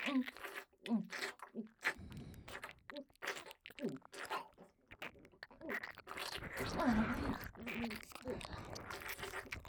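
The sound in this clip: Wet chewing and sucking on tobacco, a continuous run of crunchy, squelching mouth sounds with many quick smacks, faint but steady throughout.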